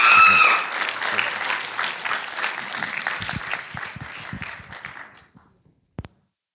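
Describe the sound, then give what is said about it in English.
A church audience claps to welcome a preacher at a morning service. Dense, steady applause gradually fades out, followed by a single faint tap. “So can we put our hands together and let's welcome Matt as he comes to preach the word this morning.”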